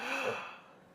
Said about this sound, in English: A deep breath, please, just once.